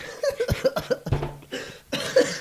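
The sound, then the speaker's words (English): A person with a bad cough coughs over and over in a rapid, uneven series of many short, harsh bursts. “Sorry, I have a bad cough.”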